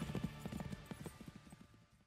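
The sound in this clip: Galloping hoofbeats of a white horse: rapid, rhythmic clip-clop with many closely spaced beats, steady in pace and gradually growing softer.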